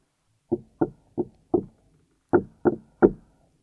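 Knocking on a door: seven sharp, hollow raps, a quick group of four followed after a short pause by a group of three, each crisp and clear against silence.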